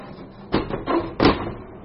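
A heavy front door of a morgue opens with a few short clattering, creaking bursts spread over under two seconds, moderately loud against a quiet background.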